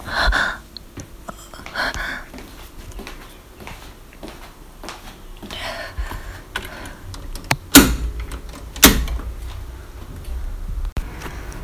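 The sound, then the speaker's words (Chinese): Door being locked from inside, with faint shuffling and light handling noises followed by two sharp, loud clicks a moment apart. “那你等一下，我去把门反锁一下吧。”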